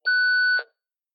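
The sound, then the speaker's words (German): A single electronic beep from a home answering machine, a steady high tone lasting just over half a second, clean and alone before silence. “Wenn Sie möchten, können Sie uns eine Nachricht nach dem Piepton hinterlassen.”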